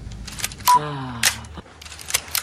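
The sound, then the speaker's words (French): A camera being loaded gives sharp mechanical clicks with a short whirring, gliding tone between the first two. A few softer clicks follow. “Anna, sa mère, charge son appareil comme une arme qu'on charge.”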